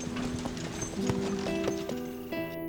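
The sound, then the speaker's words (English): Ponies' hooves clip-clop steadily as they pull a wagon, with many quick, regular hoofbeats over a continuous tonal hum that lasts throughout. “Ballifer pulled up the reins and the ponies came to a stop.”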